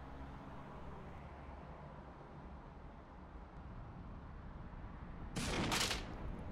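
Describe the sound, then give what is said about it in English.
Rifle gunshot in an audio drama: one sudden, loud, sharp blast with a short ringing tail near the end, after several seconds of steady low rumbling background noise. “Just because I do most of my work with a PSG doesn't mean I can't blow someone's head off this distance with a rifle.”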